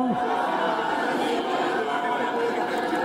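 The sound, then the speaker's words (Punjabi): An audience at a Sikh gathering shouts a jaikara chant together. Many voices merge into one loud, sustained collective shout that holds a steady level for about three seconds. “ਜੈਕਾਰਾ ਬੁਲਾਓ ਜੀ। ਬੋਲੇ ਸੋਨੇਹਾ।”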